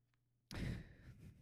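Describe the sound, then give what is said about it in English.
A heavy breath blown straight into a microphone: quiet at first, then a sudden loud, rumbling rush of air that fades over about a second. “Hey, don't breathe into the mic.”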